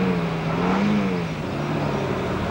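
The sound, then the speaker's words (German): A car drives off with a steady, continuous engine hum that climbs slightly in pitch partway through and stays at an even, fairly loud level. “Er öffnet die Wagentür. Sie steigen ein. Mattei fährt los.”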